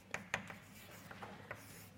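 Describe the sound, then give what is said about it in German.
Writing during a university mathematics lecture on vector spaces: faint scratchy strokes with a couple of sharper taps near the start, then softer rubbing marks, quiet and without speech. “Also ich schreibe mal ein zweites Beispiel hin für einen Vektorraum”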